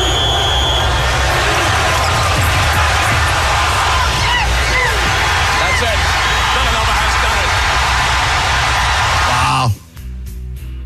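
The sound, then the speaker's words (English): A loud, dense crowd roar fills a college basketball arena in the last seconds of a tense Georgetown game. It holds steady, then drops off abruptly near the end. “Great job on the call of fading out, kind of letting the moment take over, because you can hear the crowd noise in the background.”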